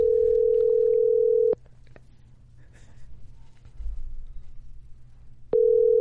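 Ringback tone of an outgoing telephone call that goes unanswered: a steady mid-pitched tone, then a pause with only faint background noise, then the same tone again.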